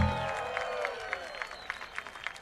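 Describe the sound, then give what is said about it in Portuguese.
Audience applause for a keyboard player at a concert, starting as a voice fades. Faint, distinct claps then stand out at fairly even intervals over a soft crowd murmur. “Eu queria uma salva de palmas para Will Stort nos teclados, senhoras e senhores.”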